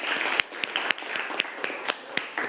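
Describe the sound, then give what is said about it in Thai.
Scattered hand claps from students in a classroom applauding a classmate. A handful of sharp, uneven claps ring out over a steady hiss. “เอาปรบมือให้เพื่อนนะครับ”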